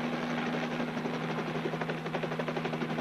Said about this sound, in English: I'm a helicopter pilot. We're above your house right now.